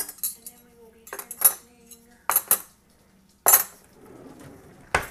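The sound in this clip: Clinks and clatter of dishes and cutlery being washed: several sharp, bright bursts of clinking arrive at irregular intervals, separated by quieter stretches.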